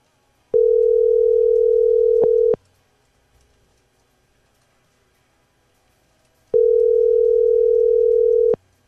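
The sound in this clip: A ringback tone on an outgoing phone call sounds twice. Each is a steady, loud, mid-pitched electronic tone lasting about two seconds, separated by roughly four seconds of silence.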